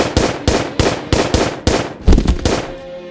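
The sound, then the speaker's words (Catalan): Pistol shots as a magazine is emptied during an execution, a regular rapid series of loud, sharp cracks, each with a short decaying tail, the last few slightly uneven before a fading ring. “Agafa la pistola d'un company i buida el carregador sobre en Benito.”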